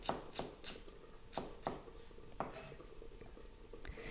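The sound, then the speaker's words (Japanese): Knife cutting a peeled vegetable into thin julienne strips on a board: a few faint, sharp, irregular taps over a low hiss. “それから縦半分に切ります。そしてそれを端から千切りにしていきます。”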